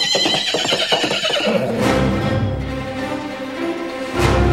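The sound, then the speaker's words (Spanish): A horse neighs as a sound effect for a knight's steed: one long, loud whinny with a quavering, shaking pitch that fades out over several seconds. “Bombón, montando su corcel de cartón y como todo un caballero, cabalgó raudo y veloz para salvar a su amada.”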